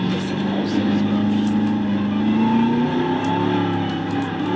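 A vehicle engine drones steadily as a car drives through trees in the video game Jurassic World Evolution, its tone creeping slowly upward over a constant loud hum.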